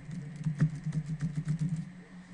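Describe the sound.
Quick, faint keystrokes on a computer keyboard as text is typed into a text box with word wrap, a steady stream of many light taps with no talking.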